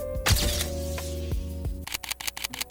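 Camera shutter firing for a posed photo, heard as a burst of rapid, crisp clicks near the end over a steady tonal background, with one sharper snap early on.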